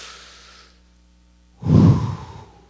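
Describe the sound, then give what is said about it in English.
A group takes a collective deep breath together: a soft, airy inhale, a short pause, then a louder, fuller exhale like a long sigh. “Let's just all take a collective deep breath together.”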